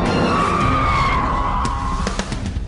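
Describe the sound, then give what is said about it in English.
Tires squeal as a Bugatti Veyron sports car brakes hard from high speed to a standstill. The loud, sustained screech slowly drops in pitch over a broad roaring rush, and sharp clicks follow as it fades near the end. “And incredibly, it can brake from this speed to a standstill in less than 10 seconds.”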